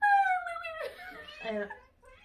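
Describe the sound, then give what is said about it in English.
A person imitates a dog's loud whine with a high, wailing vocal cry that slides downward, then breaks into a few shorter, rougher yelps and whimpers. “Suddenly, there was a very loud whine from one of the dogs. Like a whine, or like a, ay, like, ow, something got me.”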